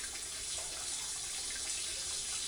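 Water runs steadily while hair is being washed, making a continuous, even hiss throughout with no talk.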